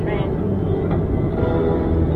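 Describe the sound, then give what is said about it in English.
A passing freight train gives a dense, continuous low rumble that stays steady in loudness for the whole stretch, with no clear breaks or individual clanks. “No, freight train. Oh, freight train. And it's coming, we're going to be stopped.”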